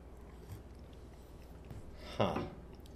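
A single short slurp of tea, a brief, wet, hissing burst that stands out against a faint, steady background.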